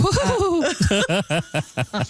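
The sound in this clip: Loon tremolo call, a quavering, laughter-like cry that starts as a wavering run and breaks into many rapid, evenly spaced pulsed notes, loud and alone.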